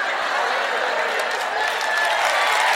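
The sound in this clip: Audience applause at a French-language stand-up comedy show: dense, steady clapping that holds at an even, fairly loud level for just under three seconds.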